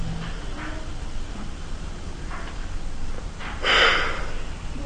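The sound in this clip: A single short nasal inhalation through the right nostril during an alternate-nostril breathing exercise: a brief, airy rush near the end, rising above a steady background hiss.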